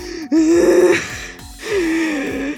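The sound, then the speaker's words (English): A voice imitates panicked deep breathing in two strained, voiced gasping breaths, each held for well under a second, with a short pause between them. “And she's just like trying to deep breathe, like.”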